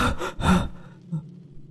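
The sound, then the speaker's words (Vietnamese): Heavy, ragged panting from someone jolting awake from a nightmare: two loud, breathy gasps close together, then a fainter breath after a short pause. “Choàng tỉnh dậy, mình thở hổn hển, mồ hôi đầm đìa.”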